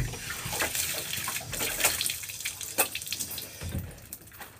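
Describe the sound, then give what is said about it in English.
Hands are rinsed under a running tap: a steady hiss of flowing water with uneven splashing as the hands move through the stream. “Let me just rinse off my hands real quick.”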